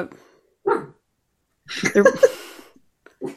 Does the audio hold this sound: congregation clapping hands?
no